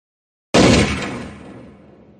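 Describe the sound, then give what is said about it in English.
A single loud pistol gunshot cracks out after a moment of silence and echoes through the mountains, its sound rolling away in a long, slowly fading tail. “The shot was louder than I expected. And echoed through the mountains for almost 3 seconds.”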